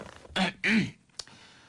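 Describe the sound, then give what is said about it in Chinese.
A man sitting down gives a quiet, voiced cough in two quick bursts, followed by a faint click, with no talk around it. “坐下咳嗽了一声。”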